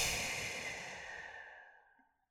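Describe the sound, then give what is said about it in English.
A deep breath released during a guided breathing exercise: one long, airy exhale that starts fairly strong and fades steadily to silence over about two seconds. “You should hear an audible sound when you take a deep breath in. Please do that again. And release.”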